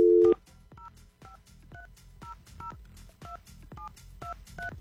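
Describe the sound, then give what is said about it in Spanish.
Telephone keypad dialing tones: one brief steady tone opens, then many short two-tone beeps follow at an even pace over a low, rumbling background. “Vamos a marcar ya.”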